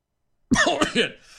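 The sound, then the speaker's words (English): Throat clearing and coughing from someone with something caught in the throat: after a brief silence, a few rough, voiced bursts come close together, then a fainter, breathy tail. “I meant to turn the mic off there. I had something in my throat. It sounds bad.”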